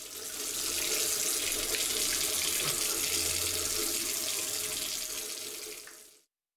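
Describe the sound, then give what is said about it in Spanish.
Tap water runs into a sink while dishes are washed, a loud, continuous hissing rush that holds steady for about six seconds and then quickly stops. “Si no cerras la llave mientras lavas los platos o te cepillas los dientes, estás desperdiciando el agua que se tomarían 44 personas en un solo día.”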